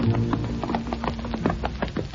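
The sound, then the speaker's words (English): Clip-clop of horses' hooves as two riders come into town from a ranch: a steady run of repeated, fairly loud hoof beats with no talking. “Foy Willing and Al Sloy have ridden into town from Minnie Argus's ranch where they're presently employed”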